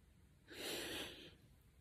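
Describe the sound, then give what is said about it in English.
A single deep breath drawn in, heard as a soft, airy rush that swells and lasts under a second. It is faint and alone, with no talk. “Breathe in.”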